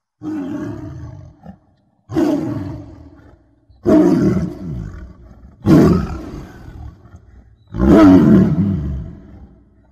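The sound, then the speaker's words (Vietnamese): A far-off tiger growling and roaring, with five loud, deep, rumbling roars at regular intervals of about two seconds, each swelling and then trailing off into a growl, with short quiet gaps between. “Họ nghe như đâu đó vang lên tiếng cọp gầm gừ từ một cõi xa xăm.”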